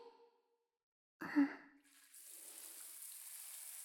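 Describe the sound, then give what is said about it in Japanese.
Running water rinses soap lather away: a short breathy sound, then a soft, steady, quiet hiss of flowing water that continues to the end. “ソープをいっぱい使いましたから、しっかり汚れは落ちたはずですよ。ではでは流していきますね。”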